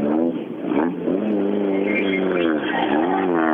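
A rally car's engine drones loudly ahead of the Midnattssolsrallyt. Its pitch wavers up and down as the driver works the throttle, and the sound holds steady and prominent throughout.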